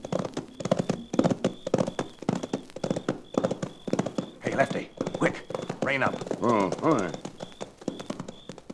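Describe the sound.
Horses' hooves clip-clop as riders approach on horseback, a steady, brisk rhythm of many hoofbeats throughout. People talk over the hooves.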